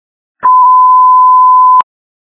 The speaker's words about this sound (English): ringtone.